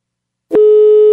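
A telephone line tone heard while a call is being placed: a click, then a steady, low, unbroken tone that holds at the same level to the end.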